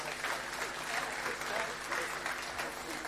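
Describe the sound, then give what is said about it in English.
Applause from a church audience welcoming new members, a dense, even wash of clapping held at a steady level throughout. “So we bless them and we welcome them into the life of this church this morning. In Jesus' name. Amen. Amen. Let's give them a hand.”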